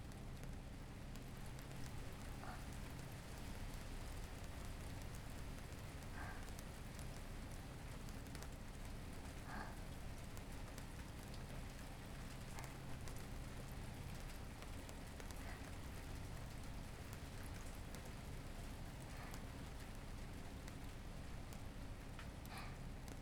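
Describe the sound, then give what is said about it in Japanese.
Steady rain falls outside, a constant even hiss of drops on surfaces that holds its level through the whole stretch with no voices. “この雨ですから、すぐにはきっと止まないでしょうし”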